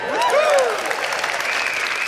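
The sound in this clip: Clapping breaks out from an audience during a talk, a steady crackle of many hands, with a voice briefly heard over the opening moments.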